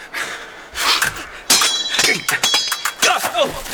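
Sabers clash in a sword fight, with many sharp, bright metallic impacts in quick, irregular succession.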